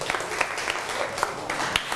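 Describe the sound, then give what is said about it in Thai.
Students applaud their classmates in a classroom: faint, scattered, uneven claps in a short burst, no one talking over them. “นั่งลงครับปรบมือให้กับเพื่อน”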